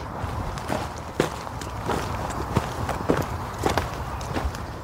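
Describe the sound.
Footsteps of people walking outdoors along an animal trail through brush, many soft, irregular crunching steps at a walking pace over a low, steady background.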